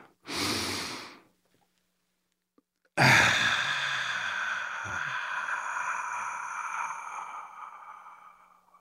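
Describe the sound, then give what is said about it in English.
A slow, deep breath drawn in for about a second, followed after a pause by a loud, sustained ringing tone that slowly fades, with no talking. “let's take a deep breath.”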